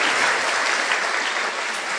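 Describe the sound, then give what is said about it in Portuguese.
A church audience applauds during a Portuguese-language sermon. The clapping is dense and even, a steady wash of hand claps at moderate volume with no voices standing out. “Pode aplaudir.”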